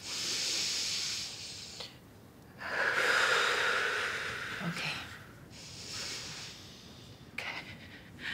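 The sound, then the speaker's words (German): Soft, hissy breaths drawn in through the nose during a medical examination, repeated several times in slow, airy swells with quiet gaps between them. “Lassen Sie uns mal gemeinsam durch die Nase einatmen, ja? Und nochmal.”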